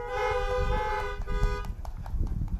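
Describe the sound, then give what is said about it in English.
A car horn honks for an amen during a worship service, in one long sustained blast of about one and a half seconds, followed by scattered noise. “You can honk if you want to for an amen.”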